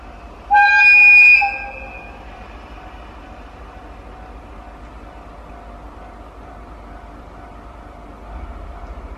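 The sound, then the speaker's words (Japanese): A DE10 diesel locomotive departing a station in the Kushiro wetlands opens with a clear, tonal horn blast, followed by a long, steady low engine rumble that stays even until it swells slightly at the end. “釧路湿原駅をこの DE10 のロロコ号が出発するところ、これをちょっと聞いていただきたいと思います。”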